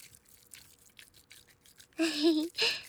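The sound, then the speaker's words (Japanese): Massage cream for protecting the ears being mixed between the hands makes soft, wet, squishy rubbing strokes in a quiet, steady rhythm. A voice then cuts in loudly near the end. “こうして手の中でクリームをかき混ぜる音も ASMR っぽくて気持ちいいから”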